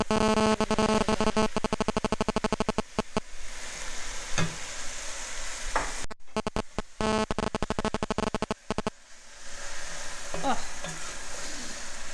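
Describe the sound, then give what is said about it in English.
Loud, continuous sizzling as bowls of cooked beef and their juices are tipped back into a large, heavy, over-half-full pan of vegetables on the hob, with two dense bursts of clattering and scraping. “Just now I'm going to tip these bowls of the cooked beef back in. You can hear the juices.”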